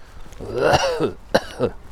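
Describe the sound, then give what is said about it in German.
Coughing and throat clearing during a walk on a narrow path: a rough, drawn-out voiced hack, then two shorter, sharper bursts, alone with no talk. “Ich kann halt nichts für meinen Husten.”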